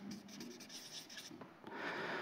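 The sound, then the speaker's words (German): Words written by hand: a faint, steady scratching and rubbing of strokes, with a short lull before the writing picks up again. “Ich schreibe da mal gottferne Normen.”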